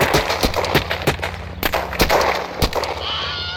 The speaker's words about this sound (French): Prêt pour la salve À mon commandement, ouvrez le feu